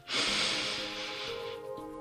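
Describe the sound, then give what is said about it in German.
A deep breath drawn in through the nose during a guided relaxation exercise: a single long, airy hiss that begins abruptly, holds for about a second and a half, then fades, with no talking. “Und jetzt schließ deine Augen und atme mit mir ein paar Mal tief durch die Nase ein”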